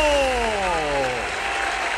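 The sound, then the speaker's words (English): An audience claps warmly to welcome the host of a talk show, a dense, steady burst of applause that a man talks over as it carries on. “Thank you, thank you, thank you. Please, thanks for the amazing welcome.”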